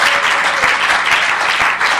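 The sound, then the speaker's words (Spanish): Church audience applauding, dense and steady clapping at an even level with a few sharper claps standing out, with no voices over it. “Aplaude con ganas.”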